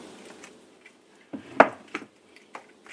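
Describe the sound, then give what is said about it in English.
Fingernail scraping the inside of an avocado shell into a dish while making guacamole: a few soft, brief scrapes and clicks, the loudest near the middle, with no talk. “And I'm scraping out the shell with my fingernail just to make sure I get every morsel.”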